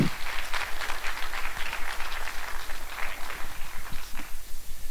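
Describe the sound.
Audience applause at a church gathering welcoming a Teen Challenge speaker to the stage: steady, fairly even clapping from many hands that pulses in a regular rhythm and continues throughout without talk.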